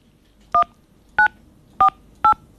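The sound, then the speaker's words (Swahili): Four short telephone keypad tones dial a code that ends with the pound key. The beeps are evenly spaced, clear and alone over a faint background hiss. “Followed by the pound key.”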